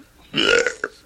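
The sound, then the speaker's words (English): A man belches in London in 1977: one loud, rough, low belch lasting about half a second, followed by a brief, fainter croak. “That was the sound of Sid Vicious belching on the 11th of November, 1977, just around the corner from Broadcasting House here in London.”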